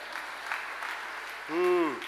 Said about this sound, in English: we should clap for the women because at least they went to the tomb.